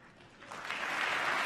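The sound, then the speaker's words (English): Audience cheering at a political debate: a dense crowd roar of clapping and shouting that swells from a low murmur to a loud, sustained wash. “We're cheering for questions, folks.”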